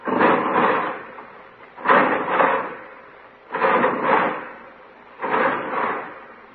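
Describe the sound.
Prison cell block bars slide shut in four evenly spaced, grating metallic rumbles, each swelling twice before fading.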